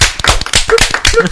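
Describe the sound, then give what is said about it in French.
Audience applause comes as loud, quick clapping over just over a second. A few voices call out briefly among the claps. “Allez, on applaudit les gouttes de Dieu, s'il vous plaît.”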